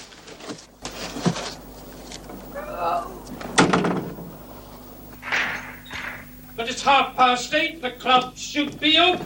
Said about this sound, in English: followed by Godber, who closes the hatch behind him